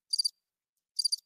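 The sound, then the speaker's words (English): Crickets chirping: two high, thin chirps separated by a silent gap, each a quick burst of three rapid pulses, faint and alone. “It's been crickets, absolute crickets. You know, that's it right there. That's the sound of it.”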